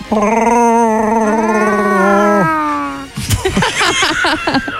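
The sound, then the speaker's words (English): A person's voice imitates a Wookiee growl: a long, loud, sustained wailing howl that climbs slightly in pitch, then breaks off into a rough, choppy, gargling growl. “Never tried to do your own Chewbacca sound? Can you do that?”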